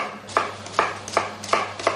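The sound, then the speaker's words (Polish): Knife chopping onion while preparing filling for onion flatbreads: five crisp, evenly paced chops over a faint low hum, with no talking. “A pani nie płacze przy krojeniu cebuli? Bo ja czuję, że i mi już łzy płyną.”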